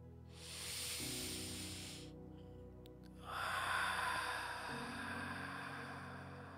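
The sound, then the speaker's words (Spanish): A person breathing during a guided breathing exercise: two long airy breaths separated by a short gap. The first is a soft hiss, the second fuller and longer, with a faint steady low hum beneath. “Empecemos por respirar.”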